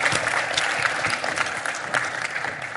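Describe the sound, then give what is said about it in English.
Audience applause at a live show, with dense, steady clapping from a crowd that holds at an even loudness throughout. “Give yourselves a hand. Yeah, give yourselves a hand.”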